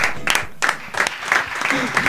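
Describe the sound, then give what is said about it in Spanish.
Applause breaks out, with scattered bright claps in an uneven rhythm mixed with voices throughout. “un fuerte el aplauso.”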